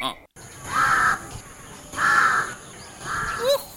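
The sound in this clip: A crow cawing in the early morning, three harsh, loud caws evenly spaced, with quieter background noise between them.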